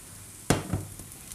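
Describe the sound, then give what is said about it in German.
Tofu sizzling as it is tossed in a hot pan while being braised with star anise. Two sharp bursts of frying hiss rise and fade over a quiet background. “Und wir schwenken den Tofu schwenken den Tofu.”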